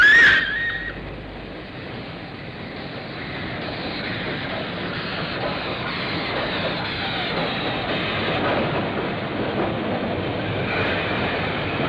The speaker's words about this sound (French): Les voyageurs pour Carcassonne, voie 7, le train entre en gare.